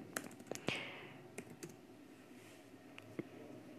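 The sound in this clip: Quiet, sparse typing on a computer keyboard while song lyrics are written out, a few irregular clicks and taps separated by pauses.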